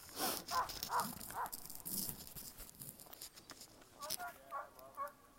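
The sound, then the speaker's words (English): A sled dog barks at a race checkpoint, eager to go as its musher packs up to pass through. High, harmonic yelps come in two clusters of repeated calls, fairly faint, over a steady background. “One noisy dog. That musher is picking up their stuff to pass through, so that's why that dog is ready to go.”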